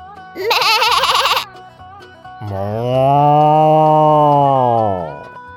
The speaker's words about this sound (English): The sheep's in the meadow The cow's in the corn